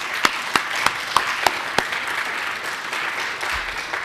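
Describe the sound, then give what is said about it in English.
An audience applauds a panel at an art and design event. The clapping is steady, with a few sharper individual claps standing out early on, and no one talks. “So welcome, everybody. Put our hands together to the panel.”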